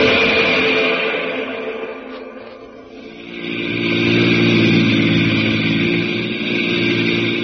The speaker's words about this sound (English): Now to an army jeep in the hills of California and Jungle Jim.